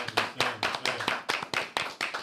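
A small group claps hands in a studio to welcome a guest, sharp, distinct claps in an uneven, sparse rhythm with brief gaps between them rather than a continuous wash.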